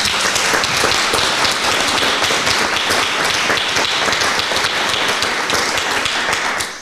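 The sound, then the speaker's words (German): Dense applause from an audience greeting Petra Köpping, Saxony's state minister for social affairs, at a public event. The clapping stays loud and steady for about seven seconds, then tapers slightly at the end. “Applaus bitte.”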